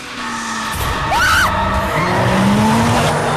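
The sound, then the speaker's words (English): Car tyres squeal as the driver swerves hard and brakes at about 100, a few wavering, high squeals rising and falling over a steady engine drone, fairly loud throughout. “She zigzags violently, then rams on the brake pedal.”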